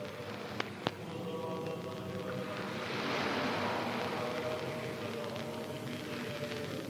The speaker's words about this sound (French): Dans cette maison de 3 étages à 2 pas de la mer, une maison avec une vague sauvage qui gronde et qui jase à côté.